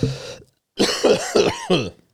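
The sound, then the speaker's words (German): A person coughing on purpose in a few rough, throaty bursts, loud and voiced, after one opening cough and a short pause. “Ich kann original husten. Original? Es ist wichtig, dass man dann original kann. Das ist ein richtiger Husten.”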